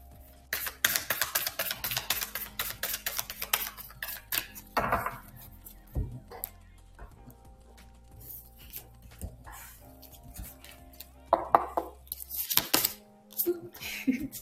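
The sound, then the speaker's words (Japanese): An advice card deck is shuffled and a card is drawn: many quiet, rapid papery clicks and flicks in uneven bursts, separated by short lulls. “それではアドバイスカードの方を引いていきましょうね。”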